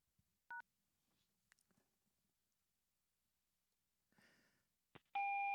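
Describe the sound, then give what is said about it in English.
A single short telephone keypad tone from pressing the pound key on a voicemail line. Quiet handling noises follow, then a long, steady beep. “Press pound to leave your message.”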